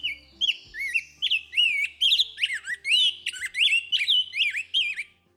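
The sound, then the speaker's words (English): Rose-breasted grosbeak calling during spring migration in Wisconsin: many bright, whistled, warbling notes in quick, repeated phrases, loud and clear throughout with no talk. “That is the call of a rose-breasted grosbeak, courtesy of the Cornell Lab of Ornithology.”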